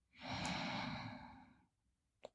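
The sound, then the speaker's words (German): A breath drawn in through the nose, a soft steady airy rush lasting a little over a second, then quiet, with one short faint sound near the end. “Und nochmal einatmen über die Nase”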